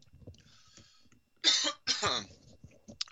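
Two harsh, loud coughs in quick succession from a radio host on live air, following faint murmuring, with a brief softer rasp near the end.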